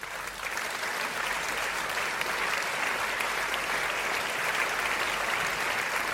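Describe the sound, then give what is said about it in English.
Crowd applause greeting a newly introduced guest, a Paralympic athlete from Colorado, a dense, sustained clapping that holds at an even level for about six seconds. “Duvall Nation, please rise to your feet and welcome all the way from Colorado, the absolutely amazing Beatriz Hatz.”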